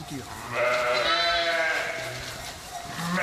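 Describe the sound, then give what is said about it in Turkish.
A merino sheep bleats on a farm where two ewes, one pregnant, compete over a newborn lamb: one long, wavering, nasal bleat rises over low background noise, followed by fainter calls. “Doğumu yaklaşan gebe bir koyun yeni doğan kuzuyu kendi yavrusu sandı.”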